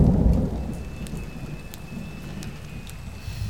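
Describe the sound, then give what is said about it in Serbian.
Steady rain falling in a dense, even hiss, with a deep thunder rumble swelling loudly at the start and fading within the first half second. “Ova kiša pada li pada?”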